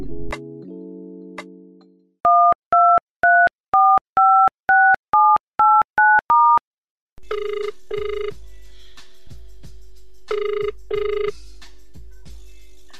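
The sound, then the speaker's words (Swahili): A telephone call is placed: a low dial tone, then a rapid string of keypad tones, a short silence, and two double-pulse ringing tones. The tones are loud and clear, with no voices. “Sasa ngoja nimpigie simu alafu tuweze kupiga mastori kibao.”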